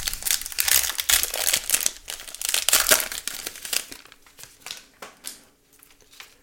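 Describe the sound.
The wrapper of a 2023 Prizm trading card pack crinkles and tears in dense, loud bursts, then thins into sparser, fading crackles toward the end.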